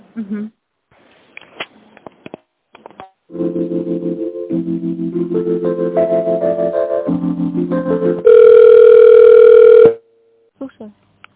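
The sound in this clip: Telephone line tones while a call is transferred to extension 200: a run of stepped electronic tones, then a loud, steady tone held for about a second and a half before it cuts off.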